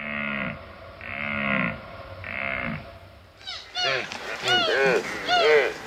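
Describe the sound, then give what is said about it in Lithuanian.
A red deer hind and calf call: three drawn-out, low, mooing bleats come at steady intervals, followed by a busier run of higher-pitched, wavering calls that overlap one another. “Čia girdite elnio patelės ir jauniklio balsus.”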